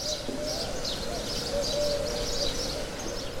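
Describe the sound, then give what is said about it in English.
Birds singing on a balcony in Dubai in the morning: repeated high chirps over a low, steady cooing tone, set against a faint background hiss. “A parade of birds of all colors and sizes that land on the balcony, soar across the windows, peer in, and sing to announce each day's beginning.”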